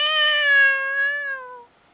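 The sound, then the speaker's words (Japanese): A single drawn-out meow from a domestic cat, loud and clear, holding a steady pitch before sliding slightly lower and fading out alone. “猫さんと会話？ 多分できてるで。な、猫さん。”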